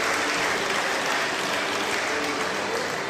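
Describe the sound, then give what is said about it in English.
An appreciative audience at a street musical performance in Covent Garden applauds, a dense, steady wash of many hands clapping at even loudness throughout. “As you can hear, there's an appreciative audience here.”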